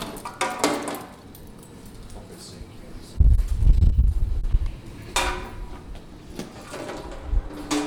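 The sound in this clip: A bunch of keys jangles in a few bright metallic bursts, with a low rumbling stretch of handling noise in between.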